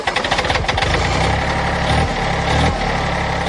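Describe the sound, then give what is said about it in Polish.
A tractor engine running loud and steady, with a fast, rhythmic chugging and knocking pulse over a heavy low rumble. “Chciałoby się powiedzieć, każdy kraj ma swój kultowy ciągnik.”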